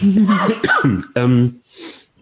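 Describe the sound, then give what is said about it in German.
A person clears their throat with a few rough, voiced grunting bursts, followed by a breathy rasp that fades out. “Entschuldigung, Moment, jetzt habe ich irgendwie einen Frosch im Hals.”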